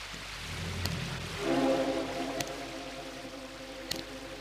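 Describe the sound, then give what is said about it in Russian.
Rain falls as a steady, broad hiss, with a low tonal drone joining partway through and a few faint sharp ticks scattered over the top. “Дождь усиливается.”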